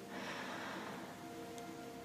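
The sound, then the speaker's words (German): A deep breath drawn in, a faint, soft airy rush lasting about two seconds over a low, steady hum. “Dazu atme jetzt für dich ganz tief ein”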